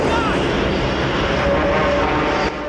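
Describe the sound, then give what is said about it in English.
Steady roaring drone of a plane flying through cloud, a dense engine rumble that holds level and loud, then drops slightly just before the end. “As the Memphis Belle comes through the cloud, the tail of another plane comes into view.”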